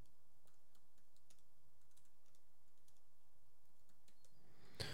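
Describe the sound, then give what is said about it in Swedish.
Quick typing on a computer keyboard as someone writes something down fast: many light, rapid keystroke clicks in an irregular run, faint and alone, with a brief louder knock at the very end. “Jag ska skriva ner en grej lite snabbt så.”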